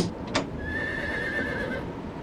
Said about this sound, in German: Ich sage Ihnen, dieses Pferd ist bösartig.